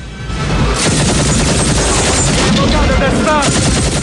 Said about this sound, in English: He grabs the anti-aircraft gun in the ragged placement and aims for the banking chopper. He opens fire.